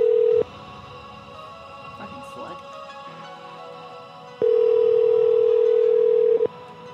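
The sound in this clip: Telephone dial tone on a call to a delivery customer, a loud steady hum that sounds briefly, cuts out to quieter muffled handling noises, then returns for about two seconds before stopping abruptly.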